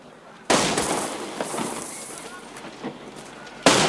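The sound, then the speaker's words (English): A gunshot with a bullet striking dirt near a villa gate: a sudden loud blast opens a long, harsh, noisy rush that slowly eases off, and a second sharp burst hits at the very end. “A bullet explodes in the dirt at Lisiek's feet.”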